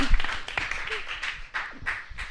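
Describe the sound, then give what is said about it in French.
Scattered audience applause for two photographers, a loose patter of claps at moderate level with uneven bursts rather than a full ovation. “On est gâtés, Yann et Sergio. On applaudit.”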